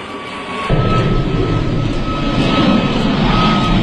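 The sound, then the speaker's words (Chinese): A C919 airliner, aircraft 104 on its first test flight, roars into its takeoff from runway four at Shanghai Pudong International Airport. A heavy engine rumble surges in abruptly and then holds loud and sustained. “早上五时三十二分，C 九幺九大型客机幺零四架机在上海浦东国际机场第四跑道经过加速滑行之后平稳起飞。”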